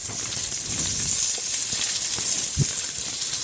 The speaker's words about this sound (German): Klein geschnitten. Mit Schale. Dann karamellisiere ich das mit etwas Zucker.